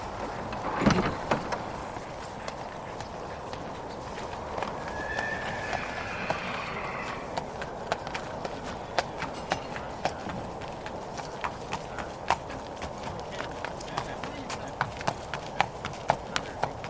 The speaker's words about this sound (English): Whoa, horsey.